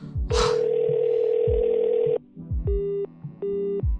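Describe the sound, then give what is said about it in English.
A phone ringing tone plays after a voice assistant dials a call: one long steady electronic tone, then two shorter identical beeps with a pause between, over low music underneath. “Hey Siri, call Hero.”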